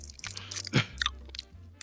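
Someone chews food with loud, wet crunches and smacks in an irregular rhythm, the bites standing out clearly from a low background hum.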